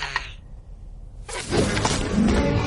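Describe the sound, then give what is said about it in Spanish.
A broken bone puppet collapses and breaks apart in an animated prehistoric adventure: a brief crash at the start, a quieter stretch, then a loud, dense clattering crunch that continues to the end. “El tigre hace mimos a la marioneta que se desploma rota.”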